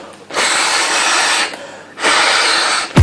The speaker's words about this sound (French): appuyez sur le système de déverrouillage et soufflez dans la poche.